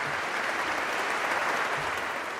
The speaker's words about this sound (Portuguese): E depois de agradecer e pedir aplausos para os artistas, Leão XIV acrescentou